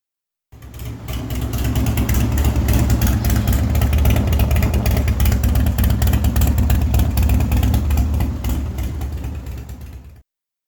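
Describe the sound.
A heavily modified car engine starts and runs, a loud, dense, rough roar with rapid rattling pulses that holds steady for about ten seconds before cutting off.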